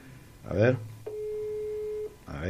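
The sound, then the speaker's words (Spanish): A single steady telephone ringback tone, about one second long and even in pitch, sounds while a call is placed, with speech just before and after it. “Ahí está, ahí estoy llamando yo al general Romero.”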